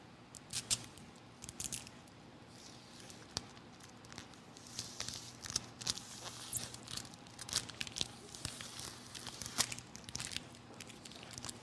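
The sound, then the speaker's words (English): Two stuck pieces of sticky tape being pulled apart, giving many irregular crackling, rustling bursts over a faint steady hum, quiet and without speech. “if at this point we want to separate the tape back into two pieces of tape again”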